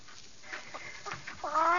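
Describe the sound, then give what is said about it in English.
A plump hen clucking: several soft, low clucks in an uneven rhythm, ending in a louder, more tonal squawk. “She's doing practically all the things a chicken can do.”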